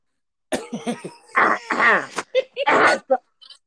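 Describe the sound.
Coughing and throat clearing from someone with something caught in the throat: a run of rough, voiced bursts of varying length, fairly loud, ending in a couple of short, fainter ones.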